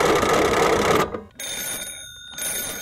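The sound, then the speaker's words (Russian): A telephone bell rings loudly in a dense, rattling burst that cuts off after about a second, followed by steadier high ringing tones interrupted by one short pause. “Однажды американскому ученому Александру Беллу понадобилось срочно позвонить своему приятелю. Для этого ему и пришлось сначала изобрести телефон.”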